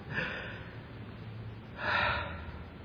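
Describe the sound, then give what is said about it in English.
Deep breaths are drawn audibly. A short airy breath comes first, then a longer, louder inhale, soft and breathy, with no words spoken. “You can take a deep breath.”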